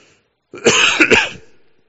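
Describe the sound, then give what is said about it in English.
A single rough cough or throat clearing from a man speaking during a Bible talk, who is recovering from a cough and sore throat. It is a loud burst with a few quick pulses, with no other sound around it. “Excuse me, I'm still recovering a little bit from a cough and sore throat this last week.”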